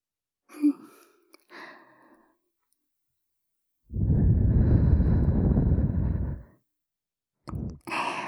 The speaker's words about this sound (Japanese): お耳に息吹きかけると、ピクンってする体の反応も、